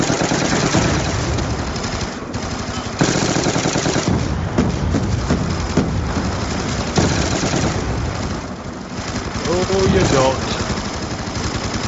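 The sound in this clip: Rapid bursts of automatic gunfire in a first-person shooter video game, with dense, rattling volleys repeating over many seconds while a player talks over the shooting.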